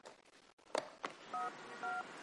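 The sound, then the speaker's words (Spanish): A mobile phone number being dialed by a man stepping outside to make a call: a couple of soft clicks followed by two short keypad beeps, faint over a low background hiss. “sale al exterior haciendo una llamada”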